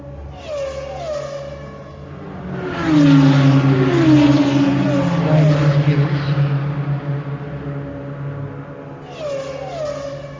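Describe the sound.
Race cars roar along a circuit's longest straight at about 280–290 km/h. The loud engine sound swells and sweeps downward in pitch several times as cars pass, then eases off, with more engine whine returning at the end.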